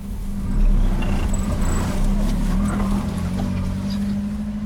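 Steady low car engine drone as a vehicle carrying aid toward a war front pulls through a military checkpoint, a continuous rumble with no breaks and no talk.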